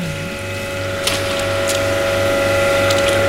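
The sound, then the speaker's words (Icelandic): A fish processing machine runs after being set up and adjusted, giving a steady mechanical drone with a sustained tonal hum and a few faint clicks, with no talking. “Hann var að standsetja vélina þegar fréttastofa leit við.”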